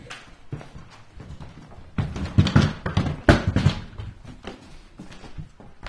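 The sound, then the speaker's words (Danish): Knocks and rustling as a cupboard is opened and a turning sheet is taken out during home care around a respirator: a few clunks and clatters with papery rustle, loudest in the middle, and no voices. “Og nu kan jeg se, at du åbner et skab og tager et lagen frem. Det er sådan et vendelagen.”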